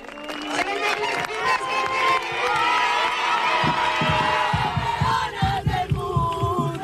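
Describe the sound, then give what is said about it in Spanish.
Fans cheer and shout at a reception for the Telecable Hockey Club and its Intercontinental Cup, the loud crowd noise settling into rhythmic, steady beats of clapping or chanting in the second half. “Espectacular recibimiento ayer del Telecable Hockey Club con la Copa Intercontinental conseguido en Argentina y muchos actos ayer con su público”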